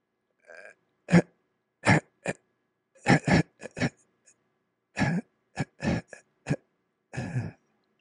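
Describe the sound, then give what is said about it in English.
A person exhales in choppy, segmented little bursts of air. Many short, rough, throaty puffs come in an uneven rhythm, separated by silent gaps. “I fill my lungs without any problem, I breathe in fine, but then I can't push the air out. So now it's segmented on exhalation like this.”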